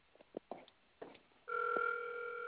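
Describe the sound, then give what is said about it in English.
A telephone rings on an outgoing call. A few faint clicks and rustles come first, then a steady, tinny ringing tone starts partway through and holds to the end. “I'm calling this nigga back from Delaware.”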